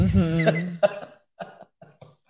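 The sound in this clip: A person coughs and clears their throat, starting with a voiced, rasping throat-clear. A sharp cough follows, then several softer coughing bursts trail off with short gaps between them.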